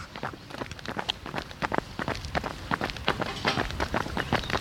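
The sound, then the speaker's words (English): Two people jog together, an amateur marathon runner and a companion, their footsteps falling as many quick, overlapping soft thuds in a brisk, steady rhythm. The steps are fairly quiet, with no talk. “This is the sound of me running”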